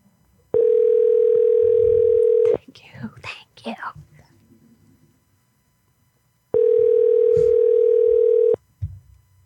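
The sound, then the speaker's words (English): An outgoing telephone call rings unanswered before going to voicemail: two long, steady, even-pitched ring tones, each about two seconds, separated by a gap of whispered voices, with faint murmurs after the second ring. “Your call has been forwarded to voicemail. Damn it, Kevin. She did not answer.”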